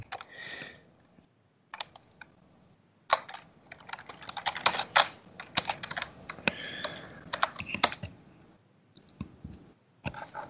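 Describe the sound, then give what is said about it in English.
Computer keyboard typing during a tabletop roleplaying game session: many quick, crisp key clicks in uneven bursts and flurries, with short pauses between runs of keystrokes and no voices. “Yeah, I cannot type.”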